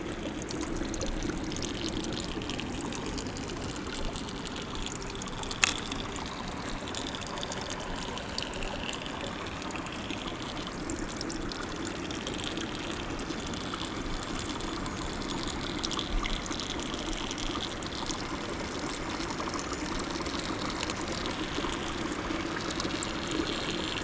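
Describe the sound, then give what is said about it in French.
Water flows over a peat bog in a steady, continuous wash of trickling and gurgling that stays even in level throughout, with no voices. “l'eau glisse sur une tourbière”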